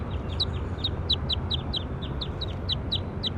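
Bird calls: a rapid, steady series of short, high, sharp chirps that repeat many times over a low rumbling background.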